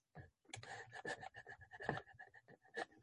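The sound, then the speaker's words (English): Writing is erased from a board during a lecture with quick, scratchy strokes in an uneven rhythm. The rubbing is faint and lasts about three seconds. “I'm going to erase.”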